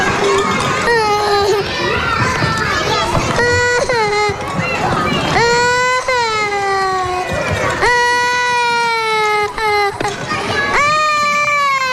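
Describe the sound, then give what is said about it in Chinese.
A small child in a kindergarten class of four- and five-year-olds cries hard. Loud, drawn-out wails repeat again and again, broken by short sobbing catches for breath. “走了，不哭了啊，不哭了。”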